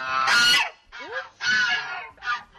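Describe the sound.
Geese honk loudly, kept as watch birds that sound an alarm at anything unusual. Four harsh, nasal honks come in uneven bursts, separated by short pauses.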